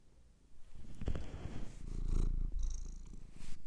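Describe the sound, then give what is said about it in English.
A cat purring: a steady, low, rumbling purr runs through the whole clip. It swells louder after the first half-second and stays fairly even, with no voices heard. “That was my cat.”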